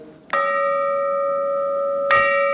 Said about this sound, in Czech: Od toho stroje byly napojeny kladívka nad ty zvony, oni byly pravděpodobně venku, aby to bylo líp slyšet, a ten menší praskl, takže ten nezní, to je jak kastrol, ale tohle ten ještě